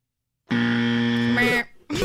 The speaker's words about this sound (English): There's two different buzzers on here, so you get both.